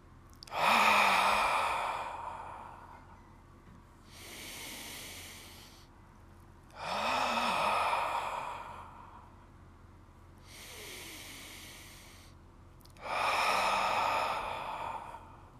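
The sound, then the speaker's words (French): Long, breathy exhalations during a perineum breathing exercise: three loud sighing out-breaths, evenly spaced, alternating with quieter in-breaths. “En soufflant, on relâche le périnée, on rentre le nombril, on se grandit et on éloigne les épaules des oreilles. Allez, quelques périnées expirent.”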